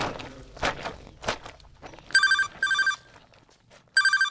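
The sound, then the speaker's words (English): A mobile phone ringing with a bright electronic trill in three short bursts, preceded by a few heavy thumps and shuffling steps. “Love that sound? Or loathe it? Whatever you think. One thing's for sure. That ring has changed our lives. Today, we don't worry about where we're going to meet. We just SMS each other.”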